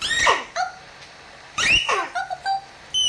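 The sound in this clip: A human voice imitates a puppy whimpering, with several high, thin whines and yips, some sliding downward in pitch, in short bursts with brief pauses between.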